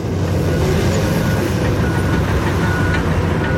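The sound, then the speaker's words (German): Bulldozer engine rumbling as the heavy machine drives back and forth spreading soil over a vegetable field, a loud, steady, dense drone with no pauses. “Ein Bulldozer, also eine grosse Baumaschine, fährt hin und her, verteilt Herd.”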